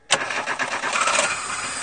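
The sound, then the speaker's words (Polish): A car engine with a flat battery, hooked to a portable jump starter, catches abruptly and settles straight into a steady, rough running roar for nearly two seconds. “W tej chwili podpięliśmy takie specjalne urządzenie, które odpala takie autka. Proszę wsiąść i odpalić auto.”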